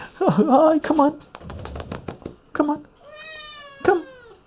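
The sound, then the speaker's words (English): A kitten gives a thin meow that rises in pitch, between stretches of a person talking to it. Light clicking and rustling fill the gaps. “Yeah, you're a good kitty. He's got sharp claws.”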